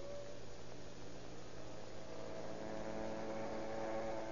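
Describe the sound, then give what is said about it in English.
A small electric motor, plugged into a light-bulb socket, runs with a steady, faint, even hum and low droning tones, unbroken throughout with no voices. “I'll just unscrew this bulb here and plug in the motor, then we're all set.”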